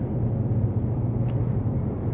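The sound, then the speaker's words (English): Steady car interior noise on a drive home from a trip: an even, low road rumble and engine drone continues unbroken, with no talking. “Well, today we are on a journey back home from a trip, and so you're going to hear kind of car noises.”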